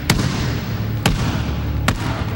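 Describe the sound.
A basketball bouncing while hands clap along: three sharp, loud thuds at a slow, roughly even pace, with a low hum between the hits.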